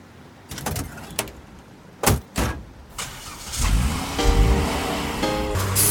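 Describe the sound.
A car door shuts with two solid thuds as someone gets into the car, and a steady engine hum follows and continues to the end.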